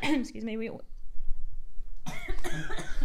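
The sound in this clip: Coughing fit: a short burst of voiced sound, a brief lull, then a run of harsh, noisy coughs that carries through to the end.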